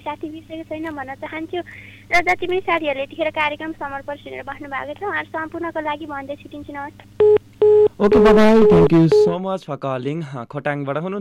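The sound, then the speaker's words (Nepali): A telephone rings during a radio call-in: short steady tonal ring bursts cut in among ongoing talk. “फोनको ring आएको पनि आवाज मैले सुने.”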